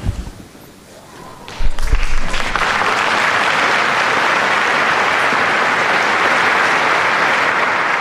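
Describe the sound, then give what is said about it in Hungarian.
Pilgrims in the Paul VI Audience Hall applaud after a papal blessing: a quiet opening gives way to a sudden burst of clapping that swells into a loud, dense, steady roar lasting to the end. “Mai napon is a hatodik pálteremben levő zarándokok tapssal köszönik meg Ferenc pápa tanítását és áldását.”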